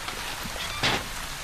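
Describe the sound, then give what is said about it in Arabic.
Steady rain falls in a dense, even hiss of drops, with one brief louder burst of spatter near the middle and no voices. “هيا تفضلا قبل أن تبتلا تحت المطر.”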